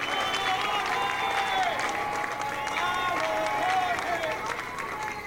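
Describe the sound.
Audience applause fills a meeting of community communicators in Caracas, Venezuela, a steady, dense clapping that keeps up throughout while a voice speaks over it.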